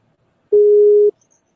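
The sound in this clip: A telephone tone after a dropped call: one loud, steady, mid-pitched beep lasting about half a second, alone against silence.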